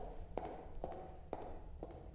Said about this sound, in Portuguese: Ela vira as costas e vai andando corredor aberto.